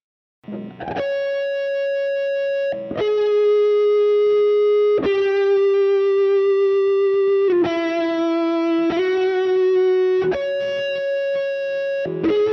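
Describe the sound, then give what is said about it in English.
A short melodic run on a distorted electric guitar, played alone as a string of sustained, buzzing notes that change pitch one after another, loud and steady throughout with heavy effects. “But it doesn't sound too nice on a distorted electric guitar, but it's that that little run.”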